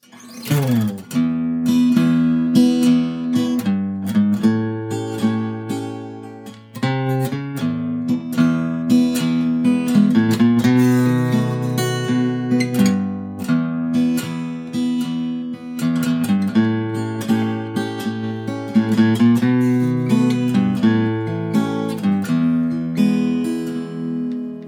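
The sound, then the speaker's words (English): An acoustic guitar strums chords in a country style, with a walk-up, walk-down bass line of single notes between each chord. It plays alone at a steady, even rhythm throughout. “You might have heard there, in between every chord, I'm playing a little bit of a walk up, walk down bass line.”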